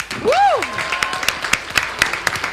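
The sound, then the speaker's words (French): Scattered clapping from a TV show audience greeting a guest. It follows a short tonal swoop that rises and falls, with sharp individual claps landing sparsely and unevenly rather than as a dense ovation. “On va maintenant ovationner notre très chère Emma Cassie.”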